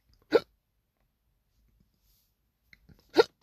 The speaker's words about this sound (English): I got the hiccups out of the blue.